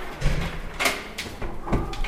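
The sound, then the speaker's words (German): The door of a parliament meeting hall opens with a few soft clunks and a brief rattling scrape over quiet background noise. “Eine Frau kommt, öffnet den Sitzungssaal.”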